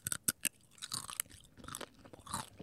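Crunchy chewing of a crispy three-flavour squid snack: a few sharp, crisp bites at the start, then a quicker run of softer crunching chews, faint and alone.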